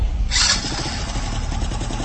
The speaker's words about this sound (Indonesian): Buru-buru kami menaiki kembali motor dan menyalakan motorku.